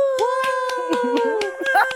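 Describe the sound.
Clapping hands as an audience welcomes a guest to the microphone: a string of sharp, evenly spaced claps under a held, tonal whooping cheer that swells again near the end.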